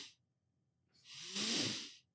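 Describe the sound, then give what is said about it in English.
Breathing from a person demonstrating a runner's breathing technique of nasal inhales and a slow exhale: a brief breath, a pause, then a longer, airy, hissing breath of about a second. “You take, two inhales. So you go like two inhales through your nose.”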